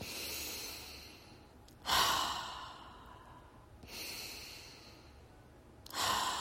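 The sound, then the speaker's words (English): Slow, deep breaths taken to settle into quiet, soft and airy, a few long inhales and exhales in an unhurried rhythm, fairly faint with no talk over them. “Get quiet. Take a couple of deep breaths.”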